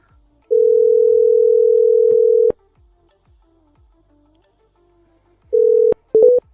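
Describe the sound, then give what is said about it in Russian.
A telephone line tone sounds while a number is being dialed: a steady, mid-pitched tone holds for about two seconds and cuts off with a click. Faint clicks follow, then a short burst of the tone and a few quick tone blips. “Сейчас набираю”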